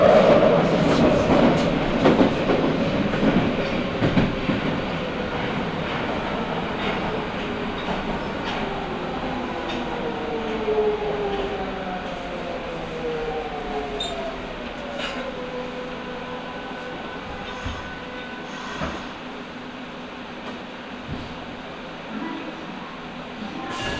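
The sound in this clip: A Nagoya Municipal Subway Higashiyama Line train runs from Takabata to Fujigaoka with a steady rumble and rail clatter, while a whining motor tone climbs in pitch for several seconds and then levels off.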